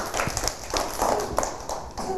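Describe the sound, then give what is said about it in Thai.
Children in a classroom give a few scattered claps for a classmate who presented a drawing. The claps are soft and uneven, with voices mixed in. “ปรบมือให้กับพี่การ์ตูนหน่อยค่ะ”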